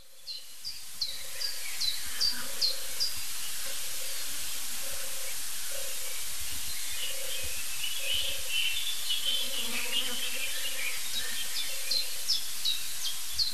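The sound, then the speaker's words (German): Soft, low purring coos of a European turtle dove, repeated in short rolling phrases, while other birds chirp faintly at a high pitch throughout. “Also diese Turteltaube, die hat es wirklich in sich. Dieser Sound, meine ich.”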